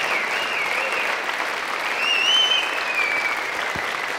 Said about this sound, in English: So would you put your hands together, please, and welcome Dr. Tom Jones.